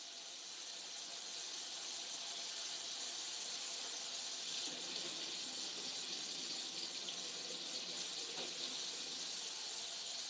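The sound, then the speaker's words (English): Running tap water as chopsticks are washed under it at a kitchen sink, a steady, quiet hiss that continues evenly without pause and with no voices. “wash my knife. Very quick and easy. Wash my chopsticks.”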